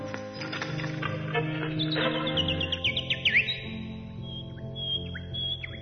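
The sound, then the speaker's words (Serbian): A man imitates a chirping bird, giving quick, high, sliding chirps and tweets in short bursts over a low steady tonal background. “Znam sad da to nije ptičica. Ne, to je glumac Mića Tatić.”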